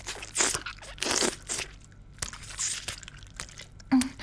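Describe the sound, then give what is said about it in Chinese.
Teeth biting through the shell of a cream-filled ice pop, several sharp, crisp crunching bursts separated by quieter chewing and mouth sounds. “而且更喜欢一会儿咬破这根冰棍的外皮，然后被里面的夹心射得满嘴都是奶油。”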